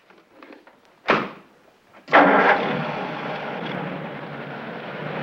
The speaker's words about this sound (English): He drives the big boxy sedan through the muddy parking area past the last row of rooms.